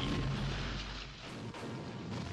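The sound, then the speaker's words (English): Grenades exploding after a whole bandolier is thrown into a fire in a film: a loud, continuous roaring blast with deep rumble, holding steady throughout with only brief dips in level and no distinct separate bangs. “Let me just throw the whole bandolier into the fire. Right? Right, yeah. Watch it go boom. Yeah, I can't imagine too. Like, that's a lot of grenades.”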